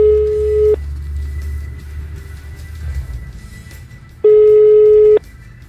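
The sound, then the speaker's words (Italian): Ringback tone of an outgoing phone call placed to a holiday villa. Two loud, steady single-pitch rings are heard: a short one at the start and a second lasting about a second a few seconds later. A low hum fills the gap between them. “Lo stiamo chiamando.”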